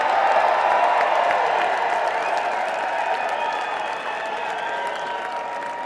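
Crowd applause fills a civic celebration in Albany welcoming a performer back, a dense, steady clapping that stays loud throughout and eases slightly toward the end.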